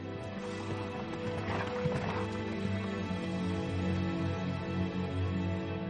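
A horse gallops through a forest, its rapid rhythmic hoofbeats running steadily beneath dense, sustained music from start to end.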